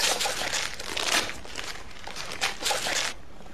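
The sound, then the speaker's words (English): Wrapping paper being torn open on a gift, a wrapped CD: continuous crinkling and ripping with several louder tearing bursts, no voices. “Rip it. What is it? I'm going to... All right, I'll rip it.”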